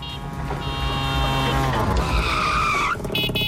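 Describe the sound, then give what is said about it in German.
A tuk-tuk drives in a radio station sound effect, its motor droning loudly with rising and falling whines and a tire-squealing skid, dense and continuous for a few seconds under musical tones. “Jedes Mal, wenn das Tuk-Tuk durchs Programm fährt,”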